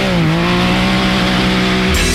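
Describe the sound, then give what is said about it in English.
A Can-Am off-road vehicle's engine revs in a loud, steady drone with strong low harmonics that waver slightly, then shift briefly near the end. “Hit the trails in the ultimate off-road vehicle. Can-Am is built for ripping through trails, crawling through mud, cruising over dunes”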